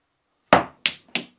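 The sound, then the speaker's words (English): A snooker ball is struck and then bounces twice, giving three sharp, hard knocks in quick succession, the first the loudest and the next two evenly spaced and slightly softer. “Oh, what a shot. The double bounce there. He knew he couldn't get it any other way, and that's why young Richard Herring”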